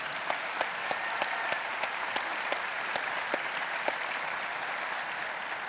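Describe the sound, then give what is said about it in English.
An audience applauds a guest at a Traders Point welcome, with dense, steady clapping marked by a few sharper claps that stands alone without talk. “Hey, can you give a warm Traders Point welcome to Carson?”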